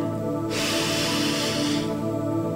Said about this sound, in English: So breathe in deeply.